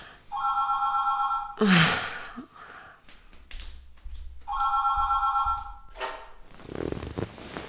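A telephone ringing, two long trilling bursts separated by a pause, with breathy sounds and soft rustling between them.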